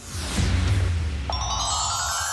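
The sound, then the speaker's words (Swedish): A telephone rings partway through, with a sustained, bright harmonic ringing tone that enters after a duller, low opening. “Det ringer hos Karlavagnen som säger hej till Anna Sundelius i Katrineholm.”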